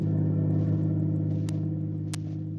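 A car driving on a road gives a steady, low engine drone with a constant hum throughout, broken by two brief, sharp clicks, with no voices.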